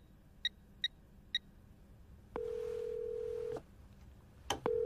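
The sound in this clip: A telephone call being placed: three short, high key beeps, then a long, steady ringback tone that stops, then a click and the start of another ring.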